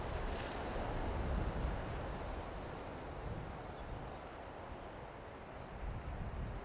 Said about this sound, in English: natural sounds on a cliff top of Tasmania, with the sound of the waves and the ocean.